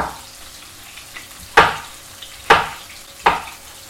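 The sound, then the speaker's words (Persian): Food sautéing in a pan over a low flame: a soft, continuous sizzle broken by three sharp scraping stirs at roughly even intervals. “اونا برای خودشون اونجا چکار میکنن؟ تفت میکنن.”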